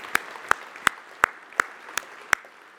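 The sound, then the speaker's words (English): Hands clapping for a crew at a church service: seven sharp, evenly spaced claps in a slow, regular rhythm over a faint background murmur. “And just a shout out to Bill Henry and his crew. Can we give them a hand?”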